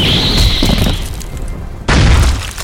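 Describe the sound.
A grenade explodes in a video game with a loud, booming blast that rumbles and fades. A second sharp, heavy burst strikes abruptly near the end, just as loud as the first.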